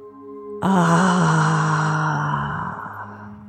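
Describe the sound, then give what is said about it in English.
A deep breath blown audibly out through the mouth, heard as a long voiced sigh that starts abruptly, holds for about two seconds and then trails off more softly. “take a deep breath in through the nose and blow it audibly out of your mouth”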